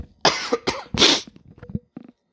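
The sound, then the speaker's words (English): Three harsh coughs in quick succession from a man, loud and raspy, followed by faint throat noises and small breaths. “My apologies for coughing in your ear here.”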